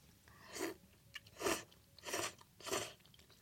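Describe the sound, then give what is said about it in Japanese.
Chewing of thick, chewy noodles in a bonito, mackerel and round-herring flake broth: four moist, smacking bursts in an uneven rhythm, with faint clicks between them and no talk. “ちょっと麺も食べてみるよ。”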